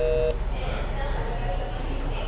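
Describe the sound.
A short electronic call-waiting beep sounds once on a phone call, a brief steady tone at the very start, followed by muffled, narrow line hiss.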